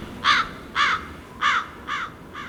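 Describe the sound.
Crows cawing: five harsh, raspy caws evenly spaced about half a second apart, the last two slightly softer, standing out clearly over a faint background hiss.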